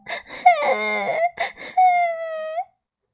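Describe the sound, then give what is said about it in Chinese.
A voice imitates a leaf fairy crying: short sobbing gasps broken by two long, tonal wailing moans, the second drawn out and lifting sharply at its end before silence. “又发现叶子精灵正在哭。”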